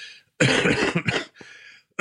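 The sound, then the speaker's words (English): Harsh, heavy coughing from a person with a bad cough: a few loud, rough bursts in a row, the first long and racking, then shorter ones with brief gaps, and no talk. “Do I have to beep out the coughs?”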